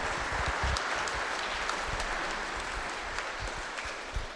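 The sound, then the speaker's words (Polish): An audience applauds to welcome a speaker at a gathering at St. Joseph's, with dense, continuous clapping that holds steady and eases slightly toward the end. “a my myślę, że brawami możemy przywitać Marię.”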